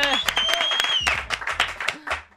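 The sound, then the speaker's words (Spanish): Applause of uneven, scattered claps with sharp individual hits, while people cheer and talk loudly over the clapping. “¡Un aplauso para todos nosotros! Venga, un aplauso, venga, bravo.”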